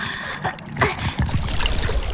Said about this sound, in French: De l'eau! De l'eau rentre dans ma coquille! De la bonne eau de mer!